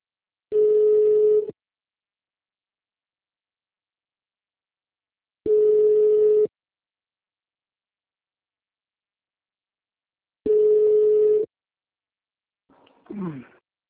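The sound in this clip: Ringback tone of an outgoing phone call: three long, steady mid-pitched beeps, each about a second long and separated by several seconds of silence, with a short voice answering at the very end.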